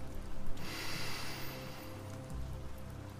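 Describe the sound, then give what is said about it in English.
A deep breath drawn in through the nose during a guided meditation makes a soft, airy rush that swells briefly and fades over a faint low background hum, with no talking. “Let's begin by taking a few deep breaths in through the nose”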